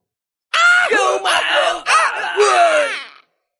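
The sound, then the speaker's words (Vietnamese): Agonized screams from a crowd of cultivators struck down by golden sword energy in a fantasy battle: loud, continuous wailing voices that run for about three seconds with a few brief breaks. “Tiếng kêu thảm thiết thê lương vang lên không ngớt.”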